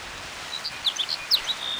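Hedge sparrow (dunnock) song: a brief run of thin, high chirps and warbling notes, fairly faint, over a steady background hiss.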